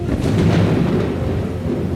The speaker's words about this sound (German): Wow, es regnet. Irre. Ein weiteres Wunder der Technik.